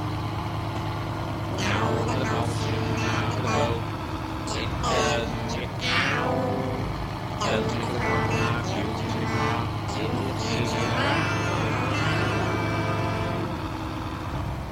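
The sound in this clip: A shrimp boat's engine drones as a steady low hum beneath continuous talk, with the boat in motion on the water.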